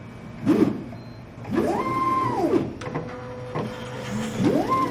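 A white pipetting robot with two long gripper arms works, its motors whining in several rising-and-falling arcs over a steady mechanical hum.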